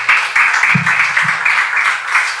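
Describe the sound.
Audience applause welcoming a pastor and his wife, a loud, dense wash of clapping that stays fairly even from start to finish.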